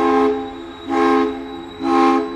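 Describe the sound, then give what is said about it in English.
Steam whistle from a sidewheel steamship that ran the Hudson River from 1899 to 1941 sounds three loud, rich, evenly spaced blasts, each roughly half a second long, with a steady low hum between them. “And they include the whistle from the Brinkerhoff, a sidewheel steamship that ran the Hudson River from 1899 to 1941.”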